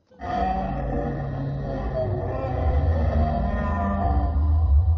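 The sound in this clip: A cartoon whale vocalizes in one long, loud, low moaning call with a rich harmonic tone. It is sustained without a break and grows heavier and deeper in its second half.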